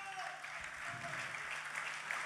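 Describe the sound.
Audience applause at a blues festival, a dense, continuous wash of clapping that holds a steady level through the whole clip.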